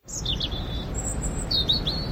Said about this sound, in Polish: Ptaszki ćwierkają, że idzie wiosna, ale czy to już?